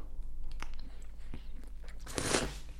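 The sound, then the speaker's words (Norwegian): A bite into a juicy, ripe kaki (persimmon) fruit. A few soft, moist clicks come first, then a louder, wet crunch near the end. “Den heter kaki. kaki. Den er også kjent som charon. Også kjent som charon. Ja. Skal jeg ta en bit av den”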